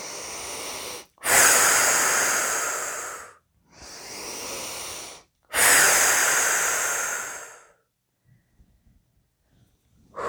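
Three slow, drawn-out exhaling breaths during a guided relaxation exercise, each a long airy rush lasting a couple of seconds with short pauses between, followed by near silence with a few faint small sounds.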